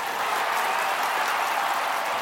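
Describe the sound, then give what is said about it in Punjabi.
An audience at a music performance by three brother singers claps in dense, steady applause throughout, in honor of their late music teacher. “ਉਹਨਾਂ ਦੇ ਨਾਂ 'ਤੇ ਇੱਕ ਵਾਰ ਜ਼ੋਰਦਾਰ ਤਾੜੀ”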